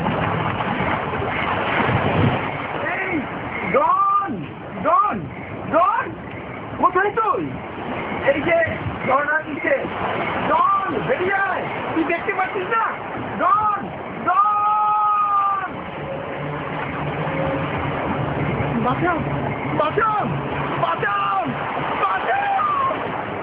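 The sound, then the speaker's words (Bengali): Water splashes and washes as a person steps into floodwater, a continuous rushing hiss running under several people talking, then turning into a steadier wash near the end. “এই যে আমি পানিতে নামব।”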